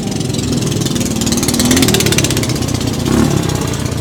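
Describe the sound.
Small motorbikes ridden by a group of kids outside, a steady buzzing engine drone that swells slightly and holds on throughout, with no talk over it.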